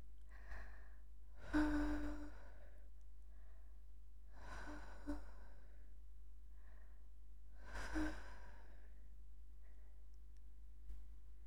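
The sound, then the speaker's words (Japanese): Soft, gentle blowing into an ear: faint breathy puffs of air, three longer bursts spaced a few seconds apart with smaller breaths between, without talk. “弟くんのお耳を、ふうふうしちゃおっと。”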